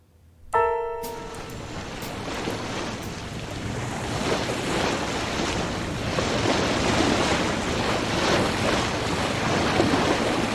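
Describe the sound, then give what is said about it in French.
Ocean waves and wind at sea aboard an ocean liner near the Newfoundland banks. A brief tone sounds at the onset, then a continuous, broad rushing wash of surf and wind holds steady to the end. “En mer, Noël. Paquebot de Grasse, proche des bancs de Terre-Neuve.”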